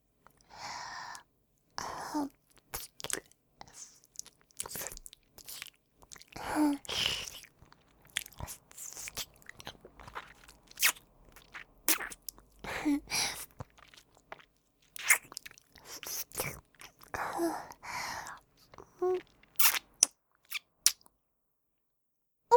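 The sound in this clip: A mouth imitates biting and chewing a slender index finger in whispered close-up: many irregular bursts of crunches, squishy chews and soft sighs, separated by brief quiet gaps.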